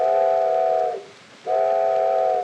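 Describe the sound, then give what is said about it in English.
A train whistle sounds two long, loud blasts at a steady pitch, split by a short gap, with no other sound. “Soon as he hears the whistle blow. What's that noise so loud and clear?”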